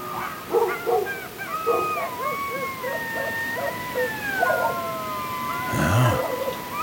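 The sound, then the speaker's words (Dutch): Jackals howl in hills in Bulgaria at night: several wavering howls overlap in long gliding wails mixed with short yips, falling in pitch over time, with a brief noisy burst near the end. “Hij hoort 's avonds en 's nachts in de heuvels vaak het janken der jakhalzen.”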